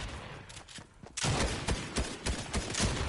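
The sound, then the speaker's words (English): Video-game gunfire bursts in suddenly after a quiet opening, then carries on as a loud, dense run of sharp cracking shots to the end. “Oh shit! I'm getting shot by somebody.”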